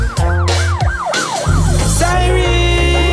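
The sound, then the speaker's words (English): A police siren wails in quick, repeated rising and falling sweeps over a heavy, thumping bass beat in a reggae mix. “Siren, you hear it? The cops is coming to get ya.”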